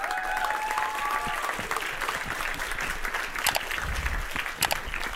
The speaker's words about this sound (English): Guys, let's give a big Entourage warm welcome. Put your hands together for Montana.